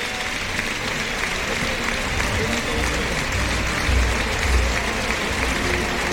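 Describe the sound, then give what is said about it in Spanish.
A bullring crowd gives bullfighter Juan Ortega an ovation: loud, sustained, even applause with a low rumble of crowd noise and slight swells partway through. “Ovación para Juan Ortega, que ha recogido la montera tras el brindis a Curro Romero.”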